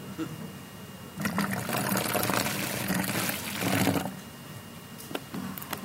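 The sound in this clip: Water being poured into coffee in a bottle gives a faint, hissing splash that starts after a second, runs steadily for about three seconds, then stops, leaving quiet background.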